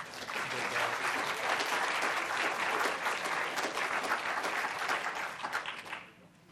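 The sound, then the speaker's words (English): An audience bursts into dense, steady applause that holds for several seconds and then fades away. “Okay, let's hear it for those guys.”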